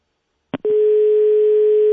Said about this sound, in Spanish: vamos a intentar otra vez, porque no dio tono bien de marcar.